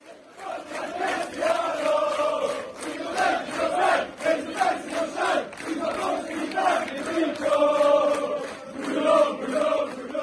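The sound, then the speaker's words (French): Football supporters sing a chant for Portuguese player Bruno Fernandes, a loud crowd voicing rhythmic, repeating phrases in unison with pulsing swells throughout. “les supporters, en tout cas, ils ont super bien accueilli ce Bruno Fernandes, ce Portugais qui vient de Lisbonne. Écoutez la chanson.”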